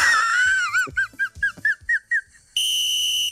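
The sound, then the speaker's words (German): A referee's whistle blows for the kick-off: a warbling trill breaks into a quick run of short, shrill chirps, then ends in one long, steady, piercing blast. “das ist der Anpfiff”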